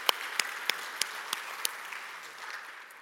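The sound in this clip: A church audience applauds a guest from Turkey, a soft bed of many hands clapping with several crisp individual claps standing out early, the whole sound thinning and fading over about three seconds.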